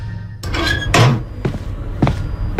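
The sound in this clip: An apartment door on a third floor is opened with a few dull clunks and knocks in quick succession, each a short, hollow thud.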